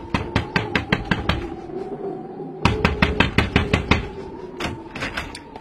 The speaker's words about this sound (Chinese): 喂！你们有完没完？啊！不断的敲门，你还让人睡觉吗？